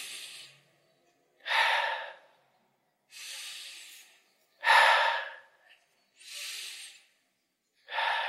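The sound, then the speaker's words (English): Deep, airy breathing taken as three slow breaths, with breathy inhales and exhales alternating and short silent pauses between them, heard alone without speech. “Take 3 deep breaths in and see how does it make you feel. So right now, just breathe in 3 times.”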